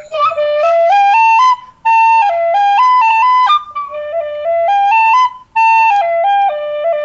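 A Celtic penny whistle plays a bright, loud melody of quick stepwise notes in several phrases separated by brief gaps, its pure piping tones carrying clear overtones, heard alone without voices.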